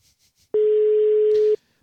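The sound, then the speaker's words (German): A telephone busy signal sounds on a call to an opera singer: one steady, mid-pitched tone lasting about a second, preceded by three faint short blips. “Besetzt geht er noch nicht ran, wie ihr hört.”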